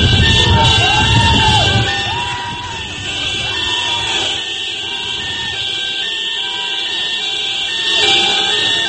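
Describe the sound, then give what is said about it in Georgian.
Crowd in Libya loudly shouting and cheering in greeting for Muammar Gaddafi, many voices raised together in repeated rhythmic bursts that stay strong from start to end. “გავრცელა კადრები, რომელშიც ნათქვამი იყო, რომ მუამარ კადაფი გავიდა ხალხში, თუ ის ადამიანი, ვინც მუამარ კადაფის მიამსგავსეს და მას ბრბო აღტაცებული შეზახილებით”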